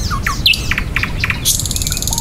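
A bird chirps and tweets in a quick scatter of short, high calls, then a buzzy trill, over a steady hiss of background noise with no voices.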